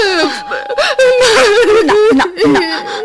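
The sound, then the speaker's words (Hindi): A young girl sobs and whimpers, her high voice wavering in broken, moaning cries with short catches of breath. The crying is loud and continues throughout. “बच्ची कांप कांप कर माँ की छाती से और चिपक गई, बोली कुछ नहीं, बस सुबकती रही।”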